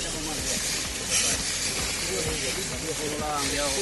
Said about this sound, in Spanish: Este es el sonido de la lucha contra el fuego.